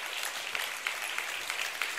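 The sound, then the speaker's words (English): Congregation applause at a church service, with a soft, steady patter of many hands clapping that holds evenly for the whole short stretch. “Give the Lord a great hand clap for that.”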